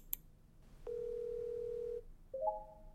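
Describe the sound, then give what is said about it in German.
A video call rings on a computer: a steady electronic tone holds for about a second, then after a short gap a brief, higher two-step chime sounds, clean and fairly quiet with no voices. “Der Markenchef wendet sich wieder seinem Computer zu und ruft seine Kollegin per Video an.”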